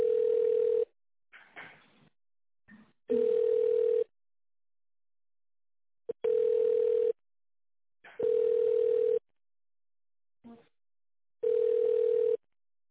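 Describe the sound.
Telephone ringback tone plays while an office call is transferred: five steady, loud, mid-pitched beeps, each about a second long, separated by quiet gaps with faint clicks and brief bursts of noise.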